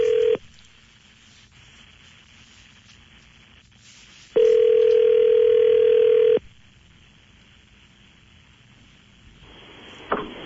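A steady single-pitch telephone line tone, heard while a call is being placed. It sounds briefly at the start, then holds for about two seconds midway, with quiet line hiss between and a small click near the end.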